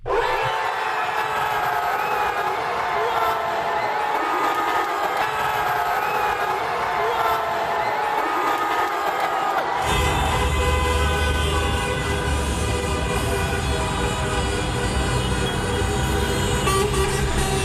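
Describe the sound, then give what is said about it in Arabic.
Moroccan football fans celebrating their team's advance to the World Cup round of 16, a dense, loud crowd din with blaring horns that never lets up and grows heavier in the low end halfway through. “كانت هذه فرحة الجماهير المغربية في البيوت، في المقاهي، في الشوارع.”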